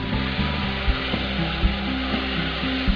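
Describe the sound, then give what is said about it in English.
Rice being stirred in a pan after wine is added while cooking mushroom risotto: a steady, bright sizzle runs throughout, broken by a few soft scraping knocks of the spoon against the pan. “add 1/4 cup of wine to the rice and stir it up a bit”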